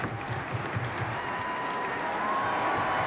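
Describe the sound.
An opera audience applauds singers at a curtain call after a Madama Butterfly performance, producing a thick, sustained roar of clapping that stays loud and even throughout.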